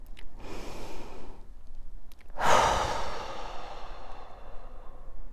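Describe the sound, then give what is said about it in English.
Two forceful exhales pushed out through the mouth in a cannonball breath during a breathing exercise. The first is a sustained, airy rush; the second, after a short pause, is a stronger burst that trails off gradually. “And they call it a cannonball breath. Like what I'm doing with my mouth is like, it's not like I'm blowing out candles”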